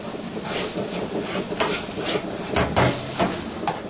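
Sizzling of a small pear frying in a pan, a steady, dense crackle that holds at an even level throughout, with a few brief sharper knocks or scrapes rising out of it.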